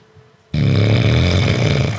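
Snoring sound effect: a loud, rough, continuous snore that starts abruptly after a brief quiet moment and holds steady to the end.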